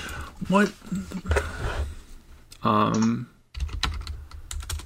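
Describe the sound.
Computer keyboard typing during a Google search, rapid light clicking keystrokes in bursts between stretches of people talking.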